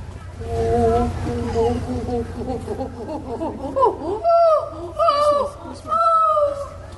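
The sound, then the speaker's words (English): A person imitates a chimpanzee saying thank you at an animal park event, starting with soft breathy hoots that build into louder, higher-pitched calls with sharp rising and falling pitch. “So I'm going to end up with a chimpanzee thank you.”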